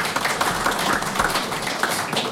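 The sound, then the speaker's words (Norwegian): Applause for a musician who accompanied a community choir: dense, steady clapping from many hands, a continuous crackling wash with no voices standing out. “Det er en ekstra applaus til Bodil.”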